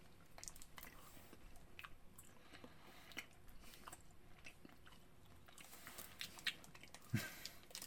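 A Tootsie Roll chocolate candy is bitten and chewed, giving faint irregular crunchy clicks and soft squishy mouth sounds scattered throughout, with no talking.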